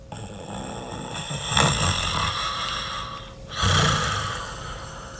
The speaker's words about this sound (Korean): 잠시 뒤 코를 고는 소리가 들려왔다.